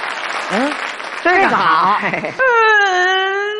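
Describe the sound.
A small child cries in loud, wavering sobs and whimpers, the pitch bending up and down before a long sustained wail. A voice speaks between the sobs.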